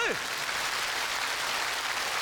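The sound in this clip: Audience applause at a live performance forms a steady, fairly faint wash of clapping that holds evenly throughout without clear individual claps.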